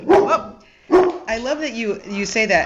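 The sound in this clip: A dog gives a couple of sharp barks at the start, then a person begins talking.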